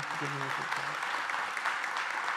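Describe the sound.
Applause welcoming the pastors: a steady wash of many hands clapping that holds at an even, fairly loud level for the whole stretch without a clear break.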